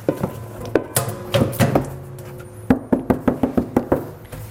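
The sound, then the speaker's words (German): Knocks and clatter from a mixing bowl as butter goes in for dough: a few scattered knocks, then a brisk, even run of sharp, hard taps, with no one talking. “Zuerst stellen wir die Butter rein.”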